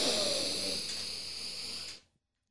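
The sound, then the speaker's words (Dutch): One deep breath is drawn in during a guided relaxation exercise, a long, breathy hiss that starts strongest, eases slightly, and stops abruptly after about two seconds, followed by silence. “Dus adem op een gegeven moment diep in.”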